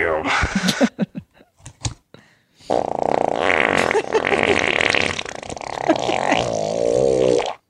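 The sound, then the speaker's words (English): A man farts while sitting on a plate of donuts: several short, sputtering bursts, then a long, drawn-out, loud fart. Voices are heard around it. “he's sitting on a plate of donuts, farting on them. He's farting on his food right now.”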